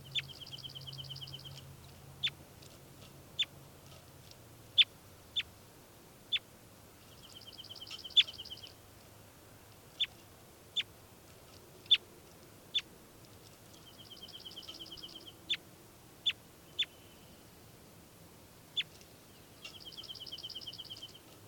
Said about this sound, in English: So recording again, bird 405.